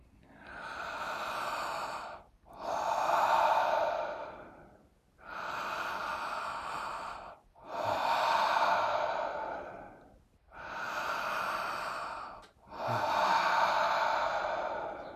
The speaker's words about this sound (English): If you look very closely, you can actually see my body is expanding sideways as I breathe.